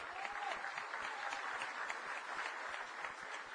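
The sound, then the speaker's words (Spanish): Audience applause at a political event, steady continuous clapping from a crowd, fairly faint and with no voices over it. “Párate, Camilo, para un fuerte aplauso.”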